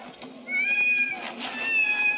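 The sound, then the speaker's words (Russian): Dozens of cats of mixed ages, breeds and colours run out through a door, meowing; two drawn-out, high meows stand out over a steady, noisy background. “Из двери выбегают десятки котов разного возраста, породы и окраса.”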